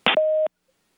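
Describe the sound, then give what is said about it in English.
An answering machine beep: a short burst of noise, then a single steady mid-pitched tone lasting about a third of a second that cuts off cleanly into silence. “If you feel the need to confess, please do so after the beep.”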